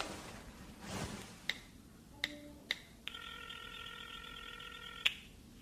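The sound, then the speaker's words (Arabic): A telephone is dialed with a few sharp button clicks, one carrying a brief beep, then a steady electronic tone of about two seconds and a final click. “خلني اتصل في مريم اشوفها منين جابت المعلومات.”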